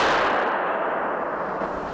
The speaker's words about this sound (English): And with that bang, he's wrapped, the rope whipped around his body with the force of a .38 caliber blank shell.